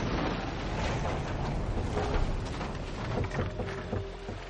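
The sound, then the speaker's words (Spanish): Oars row a whaleboat at sea, with a continuous wash of water and wind. Strokes and sloshing blend into a rough, steady noise. “Reman y miran con tristeza.”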